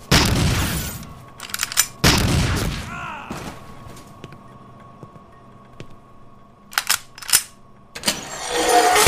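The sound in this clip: Gunshots ring out in a long, straight hallway: two heavy, booming blasts with rumbling tails early on, then a few sharper, shorter cracks near the end.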